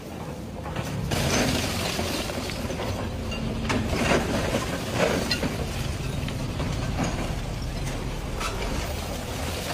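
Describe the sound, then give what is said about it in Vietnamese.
Excavators and cranes work at a house demolition site in Hanoi, giving a steady, heavy mechanical rumble scattered with intermittent clanks and knocks. No voices are heard. “Tiếng máy xúc, tiếng cần cầu, những hình ảnh về một nơi đã từng là nhà đang dần dần tan biến.”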